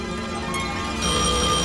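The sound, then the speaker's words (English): A telephone rings with a steady, continuous tone that grows slightly louder partway through, with no voices. “Answer that phone.”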